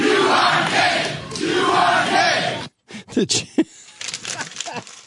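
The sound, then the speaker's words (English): A Jerry Springer show studio audience cheers and whoops in a dense, loud roar, then breaks off abruptly into a brief silence followed by scattered shouts and voices. “That's the audience from Springer, right?”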